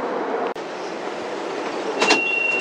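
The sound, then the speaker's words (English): A Beijing Subway Line 10 train pulls into Shaoyaoju station with a steady rolling rumble. A single sharp click sounds early on, brief high screeching bursts come near the end, and a sustained high tone follows. “芍药居站到了。We are arriving at 芍药居 station. 欢迎乘坐地铁十号线列车，”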